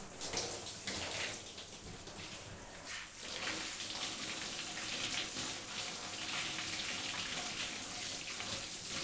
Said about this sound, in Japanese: 冷感シャンプーの後ってお湯が熱く感じやすいみたいだから、いつもより少しぬるめのお湯で流してるんです。